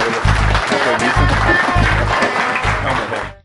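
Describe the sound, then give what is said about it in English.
Dense, steady applause from a conference audience honoring an organizer at SQL Saturday Pensacola 2019, held at Pensacola Junior College. The clapping stays loud for about three seconds, then fades out quickly. “Big round of applause for”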